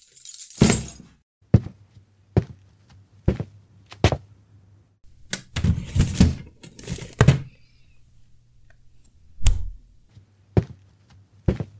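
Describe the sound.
A storeroom door being opened: sharp knocks, clunks and brief rattles, spaced irregularly and heard alone over a faint low hum.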